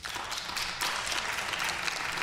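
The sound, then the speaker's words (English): An audience at a discussion of privatized Medicare management applauds: a steady wash of many hands clapping at an even level throughout. “Okay, an audience of what, 150? There's probably at least a dozen folks out there who clapped, and in this size group, that's not insignificant.”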